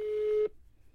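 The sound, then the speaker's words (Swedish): A telephone tone sounds while calling someone, a single steady hum at an even pitch for about half a second that stops abruptly into faint quiet. “tänkte att man kunde ringa upp henne”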